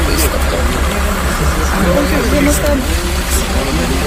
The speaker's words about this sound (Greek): Γιατί το κάνετε τώρα, την ώρα που κάνουμε δηλώσεις. Παρακαλώ να σταματήσει η μηχανή.